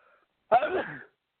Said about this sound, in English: excuse me for the sneeze